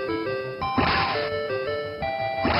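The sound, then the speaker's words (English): Retro 8-bit video game sounds from a ninja platformer. A few short, harsh noise bursts of sword slashes hitting enemies cut through a bright, beeping chiptune melody that steps between sustained tones. “That sound is you ninjing people, right, with your sword?”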